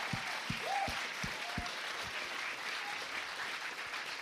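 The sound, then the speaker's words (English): Audience applause at a live festival stage show in London, a steady, even wash of many hands clapping that stays fairly faint and unbroken throughout. “Let's hear it for Connor, Woo!”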